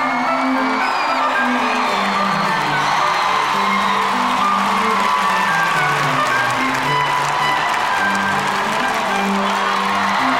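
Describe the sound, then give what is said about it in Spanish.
Applause and cheering from a live show audience, dense and steady for the whole clip with whoops mixed into the clapping, staying loud throughout without a clear break. “Reciban con un fuerte aplauso a Don Diazepam y a Don Lexatin.”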